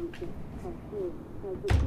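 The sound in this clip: A door being shut and locked: voices talk, then a single heavy thud lands right at the end.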